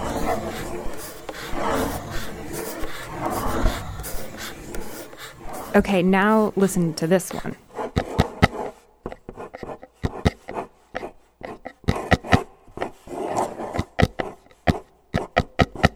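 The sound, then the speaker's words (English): A pencil moves across paper in a drawing, making many quick, dry, scratchy strokes in an irregular rhythm. A person talks first, then the strokes continue alone. “It's the sound a pencil makes when it moves across paper. The sound of drawing?”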